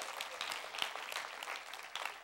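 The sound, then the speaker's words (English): Applause rises from a church audience in a faint, continuous patter of many hands clapping, steady and soft from start to finish. “That's a good place to clap right there, amen.”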